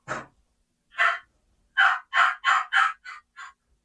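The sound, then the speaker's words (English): An imitated basic hen yelp: one raspy note, a pause, then a steady run of six soft, evenly spaced yelps. The last two are shorter and fainter. “When we talk about the exciting yelp of a hen, it's not just three or four note yelps. Like you'll hear a lot of people. Let's say here's a basic hen yelp.”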